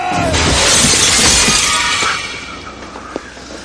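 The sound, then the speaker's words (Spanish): Glass shatters as a chair is thrown through a window during a fight scene in a 1997 crime film. A loud, bright crash bursts out at the start, then fades into trailing debris with a small late clink. “Arroja una silla contra la ventana.”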